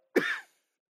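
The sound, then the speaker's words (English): A single short cough, abrupt and fairly loud, lasting under half a second, then silence with no talk. “Oh, sorry about that. I was coughing a bit.”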